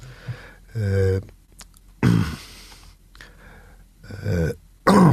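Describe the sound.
A speaker clears their throat repeatedly, with several harsh, rasping bursts separated by short quiet gaps.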